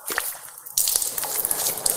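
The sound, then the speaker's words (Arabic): Water splashing as cupped hands lift it from a gently running tap to wash the face during ablution: a few soft drips first, then a sudden, steady rush of running and splashing water. “هكذا غسل الوجه. هكذا أخذت الماء بيدي ثم غسلت وجهي.”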